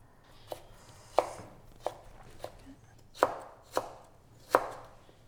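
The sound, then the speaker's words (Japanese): Knife chopping burdock root, a series of crisp, sharp cuts in an uneven rhythm, fairly faint and with no voices. “ごぼうを切ったのできんぴらにしていきます。”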